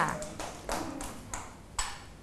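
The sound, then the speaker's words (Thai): Children clapping to encourage a classmate: a few faint, sparse claps land at uneven intervals, each a short sharp slap, with no dense applause building up. “ปรบมือให้กำลังใจเพื่อนด้วย”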